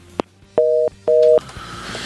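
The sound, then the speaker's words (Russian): Telephone busy tone after a dropped call: two short, even beeps of the same steady pitch with a brief gap between them, preceded by a quick click, over a low background hum. “Гомель сорвался. Наверное. Прям чувствую. Гомель, Гомель сорвался.”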